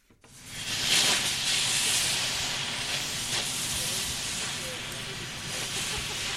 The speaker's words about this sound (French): Ce que vous êtes en train d'entendre, c'est le bruit d'un chalumeau professionnel utilisé pour faire fondre de l'acier et pour découper en plusieurs morceaux la cheminée de l'ancienne chaufferie de la Margerie à Lons-le-Saunier.